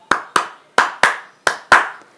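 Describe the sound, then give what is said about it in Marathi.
Hands clap six times, crisp and sharp, in an uneven rhythm of roughly paired claps with short gaps between them, each one decaying quickly. “रंजूने सहा वेळा टाळ्या वाजवल्या”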